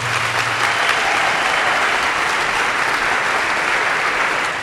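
An audience applauds as two screenwriters are welcomed onto the stage at a live event: loud, sustained clapping from a large crowd that holds a steady level throughout.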